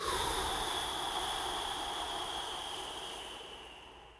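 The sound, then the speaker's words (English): A long, slow breath of air, part of a controlled in-through-the-nose, out-slowly breathing exercise: a soft, steady airy rush that holds evenly and then gradually fades away, with no voice. “In through your nose for a count of four. Hold for seven. And out for eight.”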